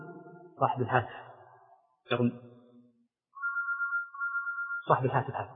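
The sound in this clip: A mobile phone ringtone: a short, steady electronic tone plays alone in a gap between stretches of a man's speech.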